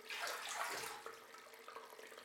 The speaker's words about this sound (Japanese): したがって最適な温度にすべく、ライオンの口から出るお湯の温度を細かく調整させていただいたのです。